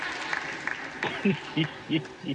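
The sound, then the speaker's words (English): Members of the US House chamber applaud during the vote for Speaker. The scattered clapping is fairly faint, and voices are heard over it in the second half. “Clap, white people, clap. And they're probably clapping off our feet.”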